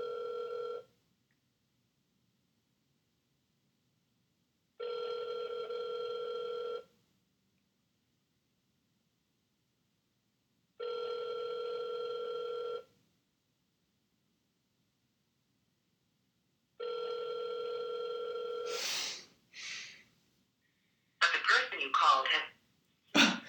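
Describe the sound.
Ringback tone of an unanswered telephone call: four long, even tones of about two seconds each, separated by roughly four seconds of silence, followed by short bursts of voice and noise at the end.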